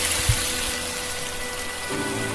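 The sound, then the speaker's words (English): Sizzling of beer poured into a hot pan to deglaze it: a steady, dense hiss that continues evenly throughout, with a brief low thump near the start. “All right, let's deglaze this bitch with this beer.”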